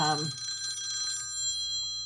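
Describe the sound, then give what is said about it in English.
A telephone rings faintly with sustained, tonal bell-like ringing that fades slightly over about two seconds. “No, we're okay. The phone has been answered. We're okay. It was just my barber.”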